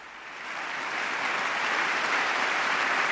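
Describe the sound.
Applause for the president: a crowd claps, swelling in the first half second and then holding at a steady, dense level to the end.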